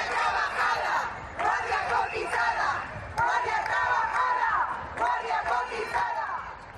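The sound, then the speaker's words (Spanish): Hundreds of striking doctors chant in the streets of Santander on the third day of their strike, loud crowd voices repeating a chanted phrase in about four regular bursts. “Son los centenares de médicos que han vuelto a salir hoy a las calles de Santander en el tercer día de huelga para reclamar mejores condiciones laborales”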